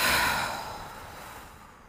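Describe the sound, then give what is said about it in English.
One deep exhale out through the mouth, a soft breathy rush of air that starts full and fades steadily over about two seconds. It is quiet and heard alone. “we're going to start with a deep inhale through our nose. Full exhale out of our mouth.”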